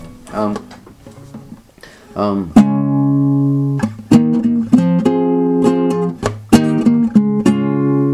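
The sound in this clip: Guitar chords strummed one after another, each sharp strum ringing out with sustained tones before the next, loud and fairly regular, after a softer, quieter opening.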